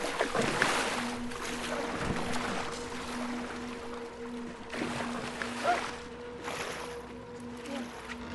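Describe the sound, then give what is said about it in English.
Water splashes and sloshes irregularly as people paddle a small boat with their hands while another bails water out with a cool box, the soft splashes sitting over a steady low hum and wind-like noise. “Simon, Matt, and Kitty paddle the boat along with their hands while Zeke keeps bailing it out with the cool box”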